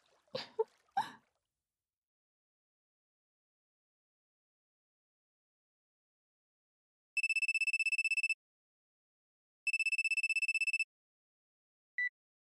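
A telephone rings for an incoming call, sounding two long electronic bursts of a bright, steady tone with a pause between, then a brief clipped third burst. A few short splashy noises come before the long silence that precedes the rings.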